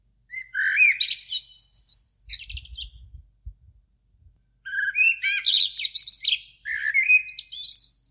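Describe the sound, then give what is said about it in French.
Blackbirds sing before dawn in a city, with rich, fluting warbled phrases in two clear bursts separated by a short pause. The song is loud and alone. “J'écoute les premiers merles chanter.”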